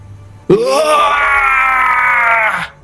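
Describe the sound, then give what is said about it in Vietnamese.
Agonized scream of the demon Ngu Thong Than as a sword strikes it: a single loud, sustained wailing cry that bursts in suddenly, holds a harsh tone for about two seconds, then cuts off. “Tiếng kêu thảm vang trời, Ngũ Thông Thần đau đớn quằn quại, khí tức suy kiệt ở trong nháy mắt.”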